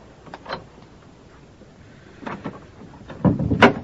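A guardhouse door being opened, heard as a few clunks and rattling knocks: a soft one early on, then a louder cluster of two or three knocks near the end.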